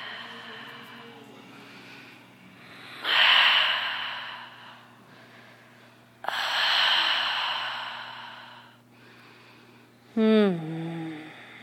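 Breathy exhales during a seated yoga twist: two long, soft rushes of air rise and fade over several seconds each, with a low steady hum underneath and a short sound at the end.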